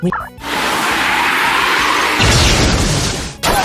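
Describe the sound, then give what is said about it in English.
Swooping Dive Bomb attack sound effect in a creature battle video game: a loud rushing whoosh that turns brighter and more forceful partway through, then cuts off abruptly before a short final burst. “Choose Dive Bomb. The user swoops down to attack the enemy.”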